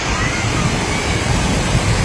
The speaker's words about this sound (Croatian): Potok, priroda i apsolutni mir. Šum koji zapravo oslobađa i savršeno.